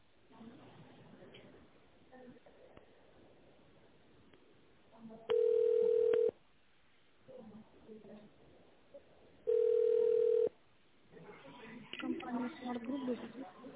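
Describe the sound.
Telephone ringback tone on a call to a business line while it connects to a manager's assistant: two long, steady mid-pitched tones separated by a pause, with recorded voices speaking before, between and after them.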